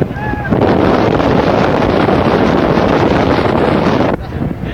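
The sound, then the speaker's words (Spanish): Strong wind buffeting a microphone, a loud, steady roaring rush that starts abruptly after a brief moment and drops off shortly before the end. “ahora escucharán el sonido del viento.”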